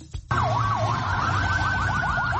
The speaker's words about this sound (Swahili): Gari za kubeba wagonjwa zimeonekana zikiwasafirisha majeruhi, huku maafisa wa afya wakitoa huduma ya kwanza kwa majeruhi.